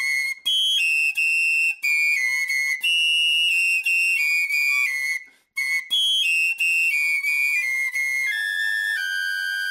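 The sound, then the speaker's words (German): Several high piccolo-flute tones sound together as loud, pure, sustained notes. They change in steps with brief gaps between them, played for a hearing experiment. “Und Achtung, jetzt kommen hohe Piccolo-Flötenklänge.”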